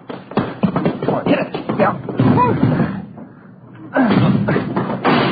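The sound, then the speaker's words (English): Men ram a blocked front door, and heavy thuds and slams from the impacts mix with their urgent shouting. “Come on, hit it again. Yeah, all right. Come on. You got it blocked or something. Something piled against it. Come on, once more.”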